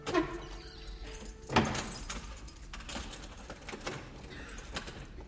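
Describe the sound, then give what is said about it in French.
A door closes and a key turns in its lock as someone leaves a bedroom. Light metallic clicks and jangling come first, then a firmer knock near the middle, followed by softer handling noises. “sort d'une chambre, ferme sa porte à clé”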